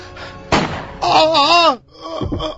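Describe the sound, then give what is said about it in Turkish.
A staged gunshot sound effect in a Turkish-language drama: one loud, sharp crack early on, followed by vocal sounds. “Aman Allah'ım, ben ne yaptım? Ateş ettim.”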